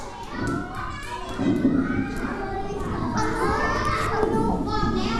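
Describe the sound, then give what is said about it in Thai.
Children opening boxes together at once: a dense, steady mix of rustling, scattered thumps and excited children's voices, loud throughout. “จับกล่องได้เลยจับกล่องแล้วเปิดพร้อมกัน3 2 1เปิดกล่องได้เลย”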